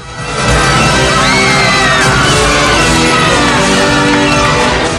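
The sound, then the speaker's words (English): A crowd cheers wildly at a mounted sheep-grabbing game on horseback. A loud, continuous roar carries whoops, yells and whistles without a break. “The crowd goes wild for Rambo.”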